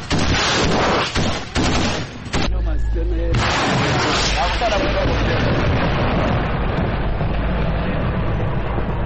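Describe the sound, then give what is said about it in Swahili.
Gunfire in a conflict zone, with bullets passing over the roofs of houses where civilians are at home. A few sharp, heavy bursts come early, then a dense, continuous rumbling roar follows, with voices talking at times. “Raia wakiwa nyumbani kwao, risasi za pita juu za paa zao.”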